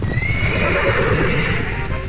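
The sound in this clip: Horses whinny with a high, sustained cry over a dense, steady clatter of hooves as they gallop off at full speed, having bolted without the wagon attached.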